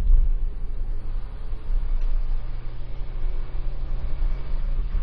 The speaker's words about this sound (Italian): C'è una salita molto ripida che percorreremo con la nostra macchina, che per la cronaca è una Ford Fiesta.